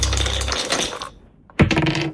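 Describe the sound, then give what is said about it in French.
Dice are shaken and thrown during a board game, giving a busy clatter of small, hard clicks. After a short quiet gap, a second sharp burst of rattling knocks follows. “Alors attendez, je prends les dés, j'ai les dés dans la main. Eh ben allons-y, hop, c'est lancé.”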